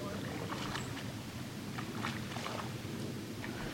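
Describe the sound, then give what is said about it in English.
A canoe with a young couple paddling by on the water: a few soft paddle splashes over a steady wash of water and light wind noise. “A canoe paddles by with a young couple, enjoying their ride.”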